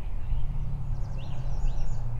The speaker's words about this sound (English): You probably hear the birds chirping and hear a few cars around.